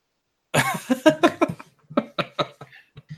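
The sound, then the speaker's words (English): A woman clears her throat in a run of short, harsh, rasping bursts with brief voiced catches. The bursts come in quick succession, fairly loud, and grow sparser toward the end, with no talk. “clears her throat”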